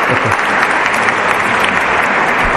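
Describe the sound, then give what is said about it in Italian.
Encouraging audience applause at a live rock band introduction, a dense, steady wash of many hands clapping at once, loud and even from start to finish. “Un applauso di incoraggiamento, grazie.”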